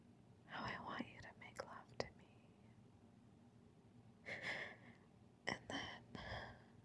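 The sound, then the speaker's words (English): Close whispering right by the ear, breathy and soft, comes in short phrases with audible breaths and a quiet pause in the middle before more whispered bursts. “when I get close to your ear, so close, you can feel my breath and I whisper.”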